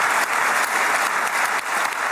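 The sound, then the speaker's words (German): Sustained applause fills a parliament chamber, a dense, even wash of many hands clapping at steady loudness throughout, with no speech over it. “Viel Beifall für diese Feststellung, dass Israels Sicherheit nicht mehr in Gefahr geraten solle”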